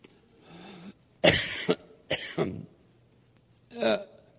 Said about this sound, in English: notice I'm coughing a lot.